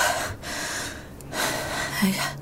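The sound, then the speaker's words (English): Heavy, ragged breathing from a person catching their breath after a nightmare. A few loud gasping breaths follow one another with short pauses between them. “I just need to catch my breath.”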